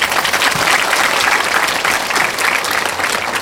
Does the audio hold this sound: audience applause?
yes